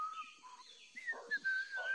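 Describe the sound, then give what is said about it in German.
A person sitting on a tree branch whistles a light melody of steady, sustained tones that step between notes. The whistling is soft and clear, with faint background noise and no talk. “richtet den Blick nach oben und sieht Frieda auf einem Ast sitzen, pfeifend, in einem blauen Overall.”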